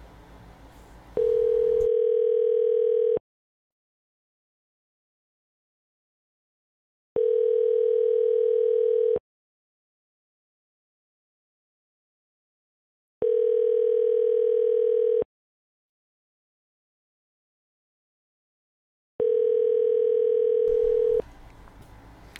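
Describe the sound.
A telephone ringback tone sounds for an unanswered call: four steady, even-pitched buzzing rings, each about two seconds long, spaced by longer silences, with brief background noise at the start and end.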